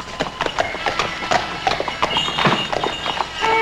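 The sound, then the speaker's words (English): Hooves of a two-horse carriage clip-clopping as it rolls away on a snowy evening: many quick hoof clops in an uneven trotting rhythm over a steady background noise. “the driver snaps his reins and the carriage rolls away.”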